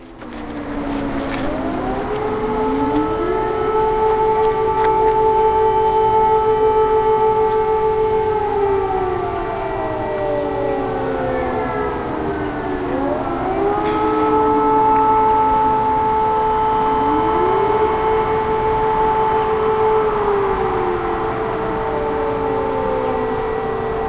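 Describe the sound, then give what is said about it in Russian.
An air raid siren wails loudly and continuously, rising to a steady howl, holding, then sliding down before rising again for a second long cycle. “время 18.20, взвыла сирена воздушной тревоги.”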